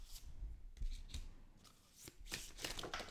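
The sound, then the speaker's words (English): A deck of playing cards is shuffled by hand in several quick rustling, riffling bursts of papery flutter that come in uneven waves, with no talk. “as I'm shuffling this deck”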